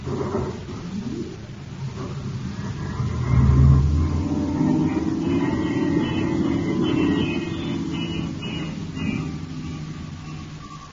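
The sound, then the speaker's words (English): A spaceship cuts into star drive for a hyperspace jump: a low, engine-like rumble swells sharply a few seconds in, then holds steady and eases slightly toward the end. “I'm cutting into star drive.”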